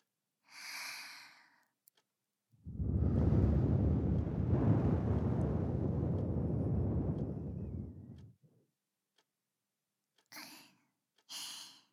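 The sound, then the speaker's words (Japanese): Breath is blown onto the ear in one long, soft, airy rush lasting several seconds, with short breaths just before and after it. “もう息吹きかけてほしいの？いいよ。”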